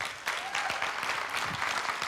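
Audience applause welcoming a preacher to deliver a sermon: dense, steady clapping that holds at an even level throughout, with no voices standing out.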